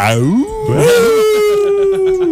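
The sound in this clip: A wolf howl effect used for a campus werewolf gag: a loud tonal cry that sweeps upward, then holds a long, steady note that slowly sinks in pitch.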